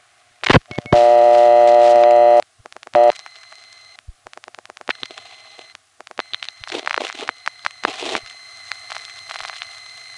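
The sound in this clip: A telephone call from a West 73rd Street panel exchange routed through a crossbar tandem with revertive pulsing: a buzzy multi-tone burst and a short tone blip, then many rapid clicks and crackling pulse trains in irregular clusters.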